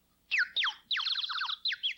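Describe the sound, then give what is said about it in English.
A water-filled bird whistle makes bright, fluttering chirps: a few short warbled bursts, then a longer rippling trill and more quick chirps, fairly soft and with no other sound. “We have a bird whistle at studio.”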